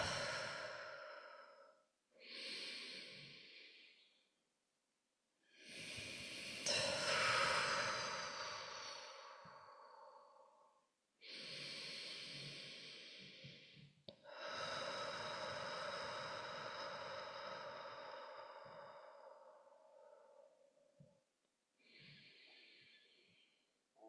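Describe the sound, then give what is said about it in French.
Slow, deep breaths taken during a guided meditation, with long airy inhales and exhales alternating, several ending in soft sigh-like releases, heard alone with no talking. “Et vous allez prendre trois grandes respirations avec moi.”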